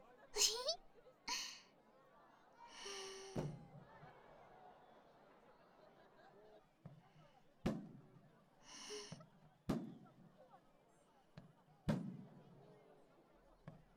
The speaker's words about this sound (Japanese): あ、ちょうど始まりましたね。あー、花火、綺麗ですね。